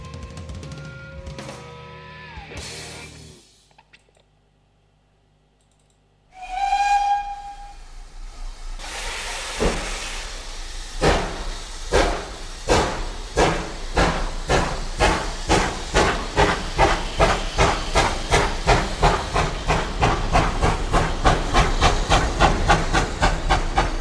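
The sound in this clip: A steam train's whistle sounds a long harmonic blast, and after a silent gap a second, shorter whistle follows. Loud hissing steam then sets in, and rhythmic chuffs steadily quicken and grow denser until the end.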